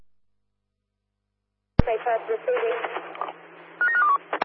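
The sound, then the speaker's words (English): Telephone keypad tones as a security operator dials through to base: a sharp click, then a stretch of muffled, voice-like sound, and finally a short run of steady electronic dialing beeps near the end. “CSA Perth, can you give Base a call, please? Dialing now.”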